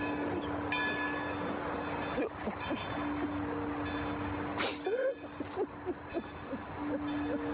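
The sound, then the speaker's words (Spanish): A train braking on the track: sustained squealing tones ring over a low rolling rumble, with a brief sharp burst partway through and a few scattered knocks afterward. “El tren frena a centímetros de Fontán.”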